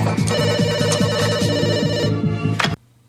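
A telephone rings in a rapid, continuous electronic trill with bright harmonic tones, then cuts off abruptly near the end, leaving near silence.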